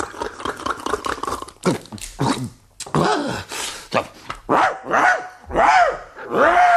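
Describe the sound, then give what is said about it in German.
A voice imitates a big, fierce dog barking loudly: first a fast run of short, gruff woofs, then several longer, throaty barks with arching pitch, each loud and separated by brief pauses, with no other voices. “Noch mal Schnaps und noch etwas lauterer bellen muss ich da.”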